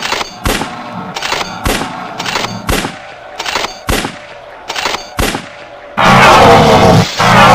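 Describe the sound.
Rapid gunfire in a military scene of an audio drama: many sharp, loud gunshot cracks in a quick, steady series, each with a short ringing tail, before a dense roaring burst of noise takes over near the end.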